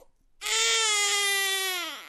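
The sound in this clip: A baby cries in one long, loud wail rich in harmonics, holding a steady pitch and sagging slightly as it trails off.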